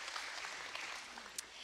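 Faint audience applause for a guest at a church, a soft, continuous patter of many hands clapping with a couple of slightly sharper claps near the end.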